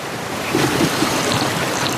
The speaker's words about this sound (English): Water just pouring out of that rock wall into a pool.